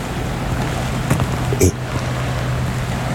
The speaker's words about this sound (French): de l'Estérel. Balade sonore entre la mer.